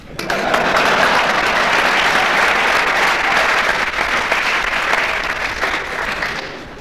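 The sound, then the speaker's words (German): Applause from an audience at an event as guests are introduced, a dense, steady clatter of clapping that starts abruptly, holds loud and even for several seconds, then thins slightly toward the end. “einen besonderen Applaus für Aunt Elmer”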